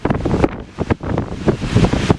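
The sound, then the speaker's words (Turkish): Roaring surf from giant storm waves striking the California coast at Long Beach and Oceanside, where seawater flooded beach homes; a dense, rumbling wash of noise with repeated surges and gusty buffeting, no voices. “Kaliforniya kıyılarını dev dalgalar vurdu.”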